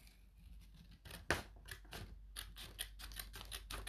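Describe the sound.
Scissors snipping through material in many quick, crisp cuts, faint overall, with one sharper snip early on and a faster run of cuts toward the end.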